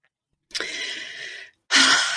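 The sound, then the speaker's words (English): A deep breath taken before speaking: a steady breathy inhale lasting about a second, a brief pause, then a louder, rushing exhale, with no other sound. “Deep breath. Listen to me. Getting ready to go.”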